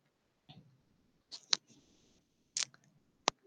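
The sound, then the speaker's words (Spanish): A few scattered, crisp key clicks from typing a message into an online chat, separated by short silences and heard alone. “perdón, estaba escribiendo la frase aquí en el chat”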